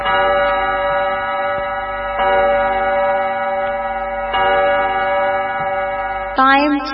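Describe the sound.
A clock chime marks seven o'clock in the morning with a few long, sustained ringing tones at a steady loudness. Each new tone starts a couple of seconds after the last, and a voice seems to come in at the very end.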